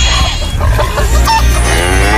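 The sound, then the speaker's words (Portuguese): Chickens cluck as corn is thrown to them on a farm: a few short clucks over loud, steady rumbling noise. “Dona Maria tá jogando milho pras galinhas.”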